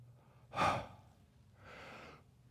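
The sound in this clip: A deep breath heard as two soft, airy rushes of air: the first brief and louder, the second longer and gentler, with no talk.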